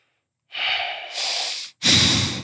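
Someone draws a few deep, audible breaths through the nose and mouth, the last one the loudest and most forceful, each a breathy rush separated by brief pauses.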